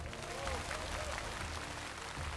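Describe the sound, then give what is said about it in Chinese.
Audience applause at an evening singing competition show, a steady, fairly faint patter of many hands clapping without pause. “来，掌声给他们，”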